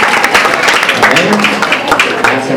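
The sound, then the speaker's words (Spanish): Audience applause at a Christian ethics class: dense, steady clapping throughout the short stretch, fairly loud, with a voice faintly audible over it. “un aplauso.”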